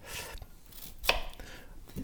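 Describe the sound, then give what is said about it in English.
A knife chops onions in a kitchen, producing a few faint, quick cutting strokes at an uneven pace, one crisper than the rest. “onion this way. Beautiful. Just keep cutting onions”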